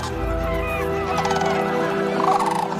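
Grey cranes call during their migration toward wintering grounds: loud, continuous, overlapping trumpeting and honking from several birds, held steady across the whole stretch with no voices.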